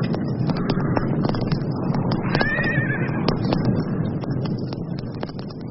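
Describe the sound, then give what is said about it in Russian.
A horse neighs in a single rising-and-falling whinny midway through, heard over a steady, noisy background that continues for the whole clip. “Ну вот, и одобрительно заржал конь потом.”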